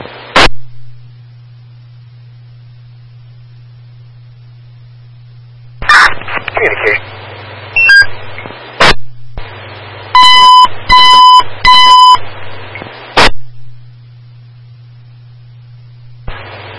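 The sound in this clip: Fire dispatch radio alert tones in Fresno: a low steady hum broken by sharp clicks and bursts of radio noise, then three short, bright, repeated tone bursts in quick succession, followed by a few more clicks.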